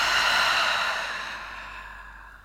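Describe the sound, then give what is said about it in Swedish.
A slow breath released after an inhale through the nose, as part of a guided breathing exercise. The airy, soft exhale is loudest at the start and fades gradually over about two seconds. “Så vi gör det nu tillsammans. Vi andas in genom näsan och släpper ut.”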